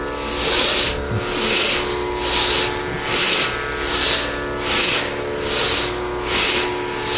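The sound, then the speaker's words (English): Rapid Bhastrika Pranayama breathing through the nose produces a steady, even series of forceful hissing breaths, pulsing in a regular rhythm throughout with no talking. “And get ready for your second round of Bhastrika Pranayama. We do it in one movement.”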